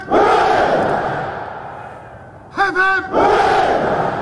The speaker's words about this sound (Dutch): Jeetje, dat was inderdaad eh, in de tuin van Buckingham Palace die uh, driemaal hip hip hoera voor de koning door de verzamelde ja, legertop eigenlijk.